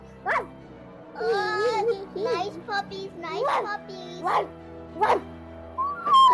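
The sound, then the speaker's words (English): A child's voice imitates a dog barking. It gives several short, voiced barks and yips with whining pitch glides, loud and uneven in rhythm. “You hear that sound? That's the sound of my barking.”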